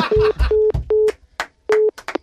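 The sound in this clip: Telephone busy tone follows a dropped call: four short, level beeps, the first three evenly spaced and the fourth after a longer pause, mixed with choppy noise bursts.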